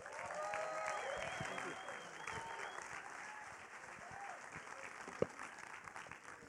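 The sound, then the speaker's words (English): A church audience gives a big round of applause to welcome a pastor to speak. The clapping is steady, with a few voiced whoops early on, and eases slightly toward the end. “I want you to give a huge One Chapel welcome to Pastor Marty Irwin.”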